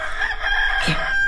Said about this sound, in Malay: Ayam jantan berkokok.